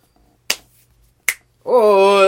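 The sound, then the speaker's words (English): Two sharp finger snaps, spaced under a second apart, crack out of near silence, followed by a sustained, steady tonal sound that holds loudly to the end. “Can you snap, too?”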